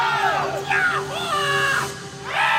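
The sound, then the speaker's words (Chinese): Huayin Laoqiang folk singing rises as a loud, hoarse shout: a strained voice carries several wavering, drawn-out phrases. “一声嘶吼，从千年的黄土裂缝中炸裂而出，这是华阴老腔”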